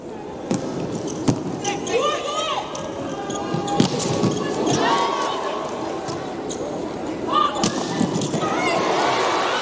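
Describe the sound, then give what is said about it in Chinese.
A volleyball serve in a Serbia versus Italy match: a few sharp ball strikes stand out over a steady crowd roar while a commentator talks throughout. “恰伊奇发球”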